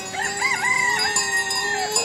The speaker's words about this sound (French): avec le coq qui chante aux Bahamas